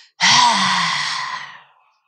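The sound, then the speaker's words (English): A forceful lion's breath, a long exhale pushed out through a wide-open mouth during a breathing exercise. The single loud, breathy rush carries a low voiced undertone and fades away over about a second and a half. “It's called a lion's breath.”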